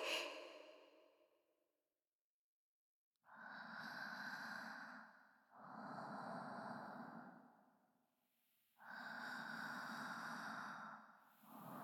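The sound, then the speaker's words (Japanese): Slow, deep breathing during an abdominal breathing exercise: long exhales and deep inhales through the nose. After a short silence come three broad, airy breaths, each lasting a couple of seconds. “深く深く息を吐いて、お鼻から大きく息を吸い込んで、”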